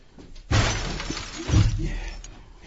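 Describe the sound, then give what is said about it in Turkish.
Window glass being smashed and a wooden chair being broken in a shabby room produce two loud, crashing bursts of shattering, about a second apart, each trailing off into scattered debris. “Ben şu iskemleyi kırarken siz de camı aşağı indirin”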